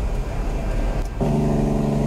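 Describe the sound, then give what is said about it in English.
A big rig truck pulls into a truck stop. A broad, steady rumble turns partway through into a lower, humming engine drone. “Oh, I hear something coming down the highway right now. It's the man himself, the man, the myth, the legend. Alan Reynolds pulling in there with his big rig over the old radio truck stop.”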